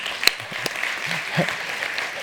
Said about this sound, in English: They want to clap for you before they know who you are.